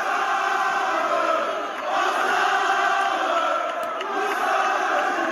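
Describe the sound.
A tennis crowd roars and cheers on court at Roland-Garros near 1 a.m., after Gilles Simon's five-set win over Carreño Busta in his final tournament there: a loud, unbroken wall of voices throughout.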